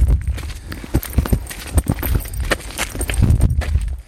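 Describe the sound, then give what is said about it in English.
Footsteps crunch and rustle through a nettle field on a fine day. Many irregular, fairly loud steps fall in a brisk walking rhythm. “So, Daddy and I are just walking through a nettle field.”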